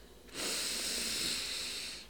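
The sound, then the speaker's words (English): A deep breath drawn in through the nose during a guided meditation: a steady, airy hiss that starts abruptly, holds evenly, then eases off at the end, with no talk. “Deep breath in through the nose”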